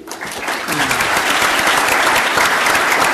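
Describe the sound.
Loud, dense applause welcomes Missouri Republican Party chairman David Cole at a Lincoln Day event in Kansas City. It swells quickly and holds steady throughout.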